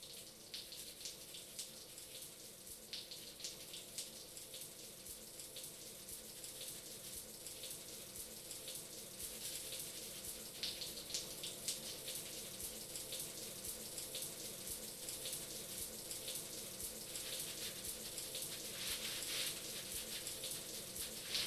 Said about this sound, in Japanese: とりあえず一回洗い流しちゃいますね。